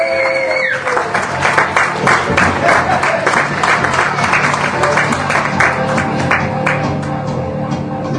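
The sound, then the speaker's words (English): An audience applauds a performer being introduced at a stand-up slam event. Many hands clap loudly and steadily for the full stretch, with some individual claps popping out of the dense, continuous sound. “Ladies and gentlemen, please, a round of applause for Regan Niemela.”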